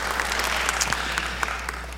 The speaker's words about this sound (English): Now come on, put your hands together and welcome in our international congregation coming in online.